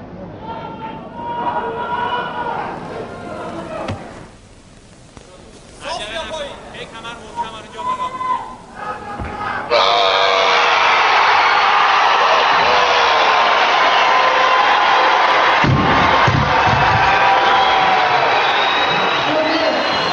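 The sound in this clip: An Iranian crowd cheers and roars for weightlifter Hossein Rezazadeh. A man talks excitedly over the first half, then a loud, sustained wall of crowd noise with shouts takes over for the remaining ten seconds.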